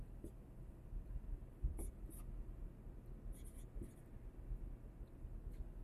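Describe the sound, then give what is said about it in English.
Faint, scratchy writing strokes as someone writes out a math formula for a series sum, with brief scrapes at irregular intervals and soft speech alongside. “Let's write out what this is.”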